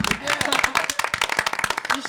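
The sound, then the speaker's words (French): Audience applauding together, a dense burst of many quick hand claps with voices mixed in, holding a fairly even loudness throughout. “On les applaudit. Ouais. On les applaudit.”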